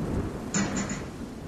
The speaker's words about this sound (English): Jeez, that wind's really picked up out there.